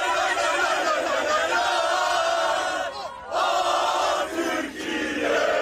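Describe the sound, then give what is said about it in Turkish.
Turkish football fans chant and shout together as the national team arrives at its hotel in Vancouver, a loud, steady crowd roar with a few brief dips in volume. “Türk futbol severler kafile otele ulaştığında meşaleleri yaktı, tezahüratlar yaptı.”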